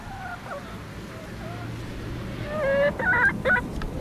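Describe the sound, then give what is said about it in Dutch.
Very soft, contented clucking from a happy hen: small, quiet chirps and murmurs, with a few brief calls and a slightly louder burst of clucks near the end over a low background hum. “Dit is het hele zachte geluid van een gelukkige kip.”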